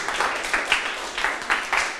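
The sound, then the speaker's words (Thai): Classroom clapping for a classmate, a group of students applauding with a steady, rhythmic beat of distinct claps repeating at a regular pace. “ถูก ปรบมือให้เพื่อน”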